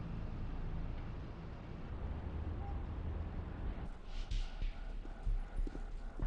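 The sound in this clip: Horse hooves clip-clopping as a carriage arrives, a faint, steady patter of hoofbeats over a low background rumble that grows a little more distinct toward the end.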